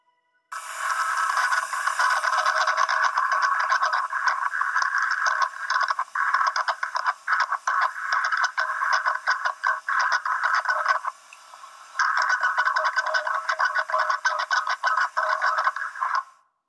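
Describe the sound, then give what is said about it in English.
Metallic grating and scraping from the Valentich recording sounds thin and buzzy, a rapid, rattling stutter that runs steadily for about eleven seconds, drops out briefly, then resumes for a few more seconds. “grating sound, as if pieces of metal were scraping together midair. While the entire recording is currently not released to the public, a portion of the actual mechanical sound has been released.”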